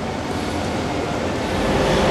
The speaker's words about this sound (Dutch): En vanaf spoor 5 vertrekt zometeen de trein richting Amsterdam. Nou, nog een paar minuten, hè, dan zou die eraan moeten komen.